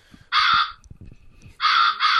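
Crows cawing: three loud, harsh caws, one alone and then, after a pause, two close together.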